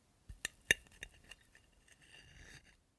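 Cutlery clinks against dishes as cake is sliced and served: a few sharp, bright clinks close together, followed by a softer stretch of scraping.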